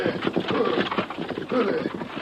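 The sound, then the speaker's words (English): Restless horses on a downhill trail, their hooves clopping irregularly as they are held back. A man speaks over the hoofbeats. “I hold these cantankerous horses. They want to keep going downhill.”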